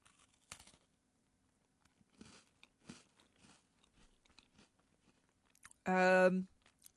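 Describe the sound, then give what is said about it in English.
Crunchy bites and chewing of a crispy, sugary chocolate snack, heard as a few quiet, spaced crunches with soft chewing between. A short, louder voiced sound comes near the end. “Well, they are crispy and quite sugary, but do they taste remotely of anything chocolatey? I'm going to give them another bite to give them a try.”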